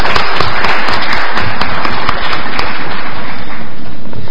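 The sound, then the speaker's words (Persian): Loud, dense audience applause for an engineer after a presentation, a steady wash of many hands clapping that continues unbroken throughout. “ما انتظار داریم که دوستان تشویق کنن آقای مهندس رو”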